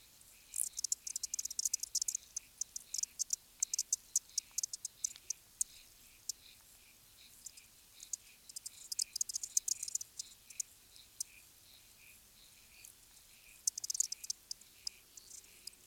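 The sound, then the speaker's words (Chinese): Aquatic insects sing underwater in a pond, producing faint, high, rapid clicking and chirping pulses in irregular clusters, with quieter stretches between denser bursts. “在水面和泥泞的底部之间有一个小小世界，那里有植物和许多微小的动物，例如那些昆虫们。”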